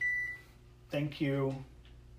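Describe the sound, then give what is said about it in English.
A single short, high oven beep signals that preheating to 415 degrees is done. A voice follows the beep. “Thank you, oven. Just telling me that it had reached 415 that quickly.”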